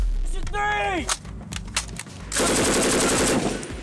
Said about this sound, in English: In Japan, U.S. Marines with the 7th Communication Battalion conducted live fire ranges during a field exercise.